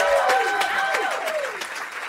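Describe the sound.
Applause from an audience at a live music set: dense, continuous clapping that holds steady for about two seconds, with a clear tone gliding downward in pitch over it.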